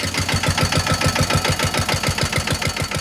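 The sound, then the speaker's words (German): A car engine runs as the vehicle drives a lap around a small roundabout, giving a steady low throb with fast, even pulses that hold at a constant level throughout. “Zum Glück hat Bad Zell hier einen kleinen Kreisverkehr gebaut und da fahren wir jetzt einmal eine Runde. Los geht's.”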